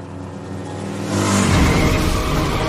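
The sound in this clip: A motorcycle speeds into an alley. Its low engine drone swells into a loud, rough roar about a second in and holds strong to the end.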